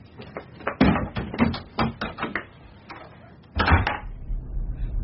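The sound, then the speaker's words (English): A door closes on a case strap, giving many rapid knocks and thuds as it bumps and rattles against the caught strap, then a louder burst of banging near the end before it settles into scraping. “Why is he just standing by the door? It's a strap on the case. It's stuck in the door.”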